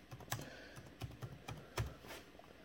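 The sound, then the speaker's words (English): Typing on a computer keyboard, with many faint, irregular keystroke clicks tapping out in quick bursts and short pauses against a soft background hiss. “Type in LeBron James, come over here and hit search.”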